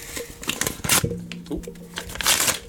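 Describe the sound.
Paper crinkling and rustling as an envelope is opened and handled at an awards announcement, a few short crisp bursts of crackle rising and falling in loudness.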